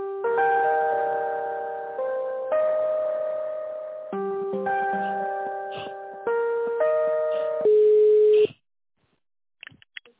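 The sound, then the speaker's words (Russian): Electronic melodic ringing tone on a phone line while an office call is transferred to another extension: a series of bell-like chords, each struck then slowly decaying, before the tone cuts to silence broken by a few faint clicks. “Давайте переключу на главного бухгалтера, на Елену Владимировну.”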